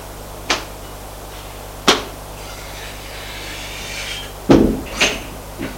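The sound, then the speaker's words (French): A door is opened off a corridor: a few sharp, separate clicks and knocks with quiet gaps between them. A louder thud and rattle come near the end. “ouvrent une porte.”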